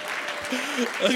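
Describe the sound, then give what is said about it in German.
Audience applause for grandparents, a short burst of continuous clapping with a voice talking over it throughout. “lass uns mal den Großeltern einen Applaus geben an der Stelle, die sind so cool.”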